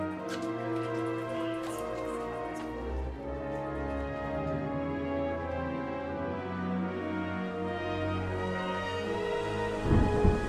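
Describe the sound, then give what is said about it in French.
Heavy rain pours steadily with deep, rolling thunder rumbling underneath, and a louder burst of thunder lands near the end. “Il pleut toujours des cordes, c'est de pire en pire.”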